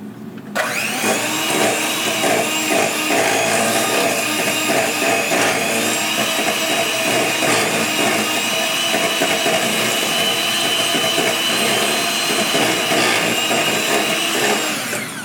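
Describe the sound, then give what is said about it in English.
An electric hand mixer whisks eclair batter in a bowl. The motor whirs loudly and steadily for about fifteen seconds without pause, with a buzzy, rattling edge and no voices. “I'm going to be using my hand mixer here for this, so I'm going to step away from the microphone so as to save y'all's ears as I whisk these together.”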